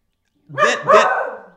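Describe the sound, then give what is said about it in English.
Two sharp barks from a schnauzer, one right after the other, the second longer and trailing off into a throaty tail. Both are loud and stand alone with no talk. “yes, that's my dog. That is Harvey, the schnauzer, that is backing up my point, folks.”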